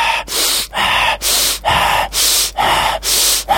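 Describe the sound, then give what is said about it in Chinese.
Forceful breathing in a breathing exercise, hard exhales alternating with inhales to empty and refill the lungs: loud, airy rushes of breath repeated many times in a quick, steady rhythm with brief gaps, no talk. “所以我哋一定要系呼气先，压个肺，然之后再吸，咁就有足够嘅空间吸啲新鲜嘅入去。”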